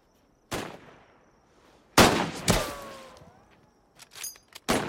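Sharp rifle shots from soldiers at imperial army target practice ring out in uneven bursts, several loud cracks with decaying tails, then a quicker cluster of smaller reports near the end.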